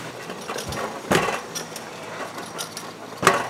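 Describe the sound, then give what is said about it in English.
Dull thumps of a brewery can filling machine's filler head pressing down into empty 16-ounce silver cans, a few heavy knocks over a steady mechanical whir. “And the cans are moved over, and that thumping sound you hear is the filler head going down into the can, and it fills from the bottom to the top.”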